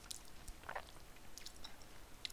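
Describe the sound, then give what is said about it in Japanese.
Someone chews maru boro sponge cookies, a Fukuoka souvenir, making faint, soft, crunchy mouth sounds with many small irregular bites and clicks and no talk. “丸ボーロを食べてますこれは本当にうまいよ”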